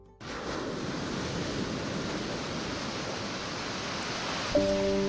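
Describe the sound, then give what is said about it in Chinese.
East China Sea tide waves flow into hand-worked sea-salt pans on Huaao Island in Xiangshan, Ningbo. The water makes a steady, loud, hissing rush that stays even throughout, with no voices. “东海潮水每日如约而至，涌入宁波象山花澳岛的盐田。”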